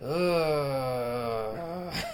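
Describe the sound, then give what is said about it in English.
Two voices imitate a groan together, one long, sustained vocal moan that drifts slowly downward in pitch for about two seconds, with no words spoken. “some sort of groan. It was actually a duo. We'd have to do it together.”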